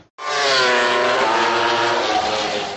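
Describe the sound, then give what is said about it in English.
MotoGP racing motorcycles roar past during a qualifying session, a loud, sustained high-revving engine howl that fills the whole clip with no break. “The first lap of qualifying for the GP bikes has started, and when they come by, it's loud, and I'm all the way behind the Pagoda”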